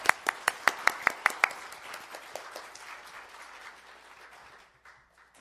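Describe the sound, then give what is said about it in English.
Audience applause welcoming a reverend to the podium: a run of sharp, distinct claps at the start that blur into a softer, spreading patter and fade to quiet after about four seconds. “Now, please put your hands together with me. 请大家鼓掌欢迎。”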